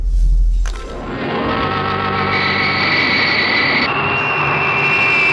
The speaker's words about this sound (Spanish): El avión aerodinámico sigue elevándose hacia el cielo estrellado de la noche, dejando abajo un amontonamiento de nubes.